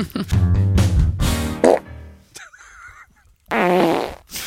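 Loud, low, blubbery fart noises in a quick series of bursts with a brief lull partway through, then one more long rasping burst at the end.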